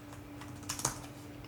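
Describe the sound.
Faint keyboard typing as someone enters a search on a computer keyboard: a quick cluster of soft clicks in the middle over low steady background noise.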